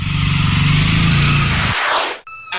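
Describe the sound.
A motorcycle riding off along a small-town street: a loud, steady, low engine drone that gives way to a brief rushing whoosh before a sudden break.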